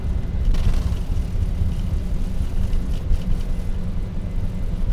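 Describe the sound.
Engines of a Lufthansa airliner at takeoff power, a steady, heavy low rumble with broad roaring noise throughout, holding an even level with no voices.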